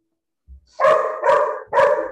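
Dogs barking, heard as three loud, evenly spaced barks in quick succession.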